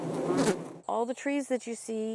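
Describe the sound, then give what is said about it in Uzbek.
Honeybees busy at work on a hot summer day: a short burst of broad noise, then buzzing in several short steady stretches with brief gaps between them. “Yozning issiq kunlaridan biri. Asalarilar doimgidek ish bilan band.”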